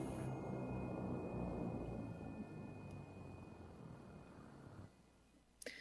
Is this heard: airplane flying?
yes